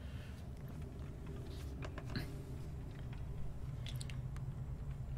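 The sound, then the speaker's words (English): Wet, steady chewing and munching from a creature feeding on a corpse, continuous over a low rumbling background with scattered soft squelching bites. “You're pretty sure you're sneaking well enough that these things don't notice, because the one that's munching on the corpse doesn't even look up.”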